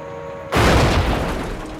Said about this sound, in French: La grenade que j'ai lancée a explosé près de la chenille.